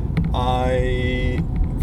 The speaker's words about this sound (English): We're in the car.